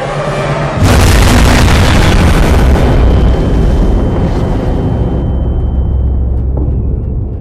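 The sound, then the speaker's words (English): Big ship-mounted guns fire with a concussive roar: one massive boom lands about a second in, then a heavy, rumbling wash of sound sustains and slowly thins out. “In moments, the big guns are back online, heralding their return with a concussive roar.”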